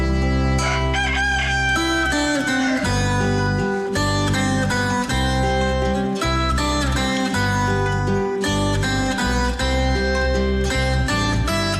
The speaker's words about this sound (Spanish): Sigue cantando, gallito, que ya oye tu corazón.